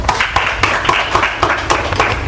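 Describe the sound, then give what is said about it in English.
Group clapping rewarding a correct answer in a Bible quiz about Zacchaeus. Loud, crisp claps fall in a quick, fairly even rhythm with many strikes throughout. “Correct. Clap for him.”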